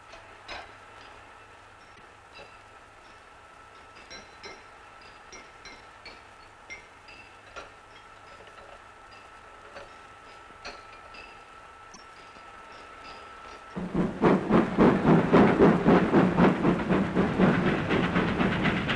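Steam locomotive at work, built for 7 atmospheres of steam pressure: faint scattered ticks and clicks give way to loud hissing, rhythmic chuffing bursts that run to the end.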